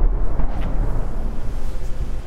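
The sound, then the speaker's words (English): An explosion from a drone strike in a war zone, heard as a loud, deep, steady rumble with no sharp onset, lasting about two seconds. “That's yet another explosion.”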